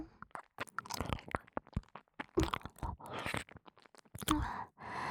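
Hard candy being crunched and chewed: many sharp, irregular crunching cracks and wet chewing clicks in close succession, fairly loud, with short quiet gaps between bites and no talking.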